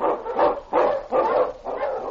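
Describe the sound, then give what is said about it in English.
Huskies, sled dogs that include a lead dog, bark in four loud, evenly spaced bursts, each a rough, full-bodied yelp or howl of about half a second, with no talk over them. “And King, on your huskies!”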